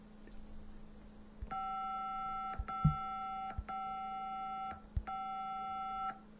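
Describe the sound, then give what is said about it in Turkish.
Ringing of an outgoing video phone call placed to a husband: four evenly spaced electronic ring tones, each about a second long and steady in pitch, fairly faint, with small clicks between them. “Bir dakika dur. Kocamı arıyorum. Bekle.”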